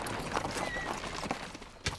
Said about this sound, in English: A covered cart pulled by two mules draws up at the gates of Gamora.